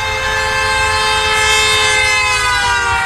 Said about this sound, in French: Ça s'appelle l'effet Doppler. L'effet de qui ? L'effet Doppler.